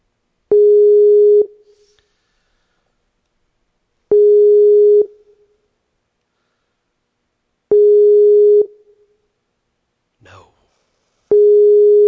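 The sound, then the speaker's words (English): An unanswered Skype call ringing: four steady electronic ringback tones of about a second each, evenly spaced in a slow rhythm with silence between them. “Let's see if we can just dial him up on Skype. Let's call him on Skype.”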